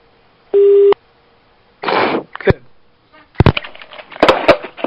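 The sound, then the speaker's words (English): A telephone gives a short, steady mid-pitched tone, followed by several clattering knocks and rattles of the phone being handled. “Hang up the phone.”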